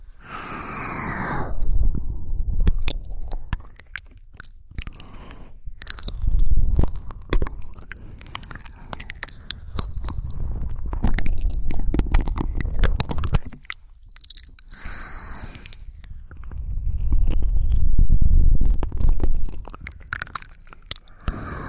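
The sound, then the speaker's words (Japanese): Wet mouth sounds of eating and nibbling on ears: continuous close chewing, biting and crunchy smacking with soft breathy noises, rising and falling in loudness in several waves, with no talk. “君のお耳は美味しくいただかれちゃうんだけどね。それじゃあいただきます。”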